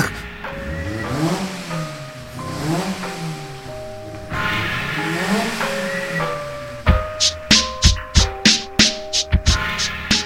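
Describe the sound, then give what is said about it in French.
A 495 kg Lotus Super 7 sports car laps the circuit at the Alès motorsport centre, its engine note climbing again and again through gear changes, then breaking into many sharp, rapid bursts. “vous fera piloter sur la célèbre Lotus Super 7. C'est une voiture qui fait 495 kg,”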